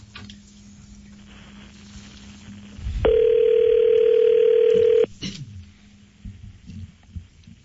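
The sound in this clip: A steady telephone dial tone sounds on a line as a call is being placed. It holds at one even pitch for about two seconds and stands out clearly above a low background.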